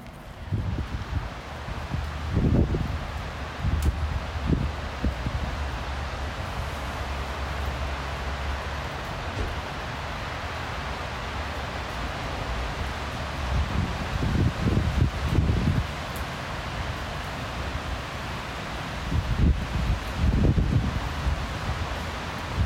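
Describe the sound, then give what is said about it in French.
Wind blows through New York City during a spell of earthquakes, a steady, broad rush with soft rustling and a few stronger gusts and low rumbles. “Et donc, pendant ces tremblements de terre, on nous a envoyé le vent qui suit.”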